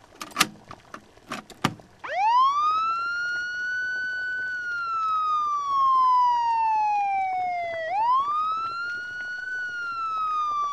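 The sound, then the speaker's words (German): An American fire engine siren played from a cassette: after a few sharp clicks, a loud wail rises quickly, sinks slowly over several seconds, then climbs again and holds high. “Diese Sirene jault. Ja, das war eine amerikanische Sirene.”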